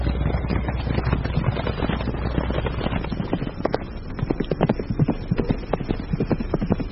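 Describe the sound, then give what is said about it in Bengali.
Hooves clip-clop steadily as two ridden horses follow a car along a low path strewn with dry sal leaves, many even beats in a continuous, moderately loud stream with no voices. “মহারাজের গাড়ির পেছন পেছন আমি আর টিমতি সাহেবও আমাদের ঘোড়ার পিঠে রওনা দিলাম।”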